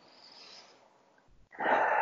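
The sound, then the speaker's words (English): Natural, unforced breathing in through the nose and out through the mouth: a soft, hissy inhale, a brief pause, then a louder, rushing exhale, heard alone without talk. “In through the nose. And out through the mouth.”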